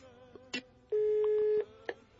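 Telephone call tone as a call goes to voicemail: one steady electronic tone lasting under a second, with a few short, faint clicks before and after it.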